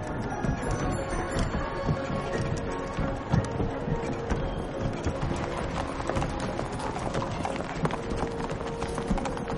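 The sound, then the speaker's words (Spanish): Hooves clip-clop steadily as horses pull a carriage, a fairly quiet, continuous rhythmic clatter that runs evenly throughout. “Arzadun y Martín cubren a Joaquín con un chal. Viajan en el coche de caballos.”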